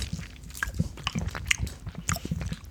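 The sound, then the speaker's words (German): Biting into a sour chewing gum candy: many crisp, crunchy bites and moist chewing sounds in an uneven rhythm, fairly close and clear, with no talk. “ich esse hier meinen äh, mein Center Shock”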